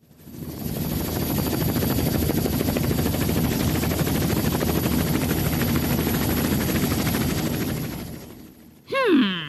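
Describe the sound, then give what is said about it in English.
Aircraft engine roar during a vertical takeoff in a video game: a loud, steady rotor-like rumble holds for about eight seconds, then cuts out and is followed by a brief rising whine. “Okay, ready for my vertical takeoff? Yeehaw!”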